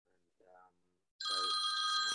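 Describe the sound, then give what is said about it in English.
Mobile phone ringing: a bright, high electronic ringtone cuts in after faint talk and holds steadily to the end. “my phone's going off here”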